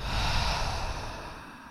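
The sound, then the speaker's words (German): A deep breath drawn in through the nose and let out through the mouth during a guided relaxation exercise while lying down. It sounds as one long, airy breath, loudest early and slowly fading, with no talk. “Dann atmen wir gemeinsam dreimal tief ein und aus. Atme über die Nase ein, über den Mund aus.”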